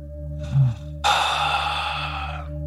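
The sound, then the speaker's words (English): A long, deep exhale during a guided breathing exercise, a steady breathy rush lasting about a second and a half over a constant low background drone, with a fainter breath just before it. “And a deep, deep, deep exhale.”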